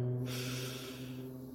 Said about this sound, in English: One last breath. In,